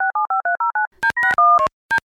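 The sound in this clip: Telephone keypad tones sound as a call is placed: six evenly spaced, clear electronic beeps, then a handful of irregular tones of differing lengths. The tones are loud and isolated, with silence between them.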